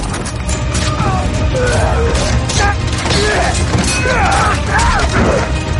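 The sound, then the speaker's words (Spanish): In a battle scene from Game of Thrones, dragon fire destroys a scorpion ballista on a city wall: dense, loud crashing and booming with mechanical clatter and swooping tones layered throughout. “Una llamarada destruye otro escorpión.”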